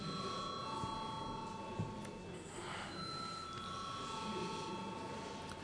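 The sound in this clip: A bell rings steadily to call members to a vote in parliament, a sustained, even ringing that continues through the whole clip over a noisy background.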